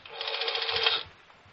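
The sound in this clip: A rotary telephone dial turns in an office: a quick run of mechanical clicks with a whirring rasp lasts about a second, then stops into near silence.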